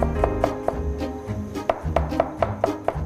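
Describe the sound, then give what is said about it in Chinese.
Knife chopping ingredients such as cilantro on a board for a noodle sauce, a run of crisp evenly spaced taps with a brief pause midway, then a steady rhythm resumes, fairly loud and without talk. “这些都要切碎。 对，都把它切碎。”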